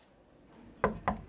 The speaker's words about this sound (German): Aber der Konzertveranstalter schon. Und der klopft jetzt nervös an der Tür von Wiesels Garderobe.